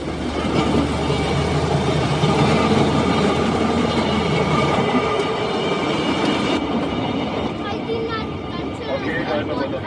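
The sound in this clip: A train riding at about 40 to 45 km/h, giving a steady, dense rumble with rattling wheels and metallic clatter that continues evenly throughout.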